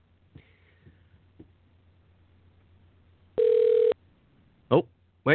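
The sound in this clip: A telephone dialing out: a few faint clicks lead into one steady, loud electronic tone lasting about half a second, followed by two short, sharp bursts.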